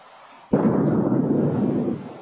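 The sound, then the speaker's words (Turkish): A giant meteor exploding in the atmosphere over New England after entering at about 120,000 km/h: a sudden boom after brief quiet, then a heavy, sustained rumble that slowly fades. “Gökyüzünde parçalandı. Çok güçlü bir patlamaya yol açtı. Öyle ki binaları sarstı.”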